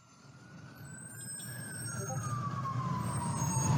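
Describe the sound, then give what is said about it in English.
A siren wails along the streets of NYC, its pitch climbing and then sliding slowly downward while it grows steadily louder over a low traffic rumble. “Yeah, this is the sounds. You hear this all the time. NYC. This is life. Yeah, that's normal. That's a normal siren.”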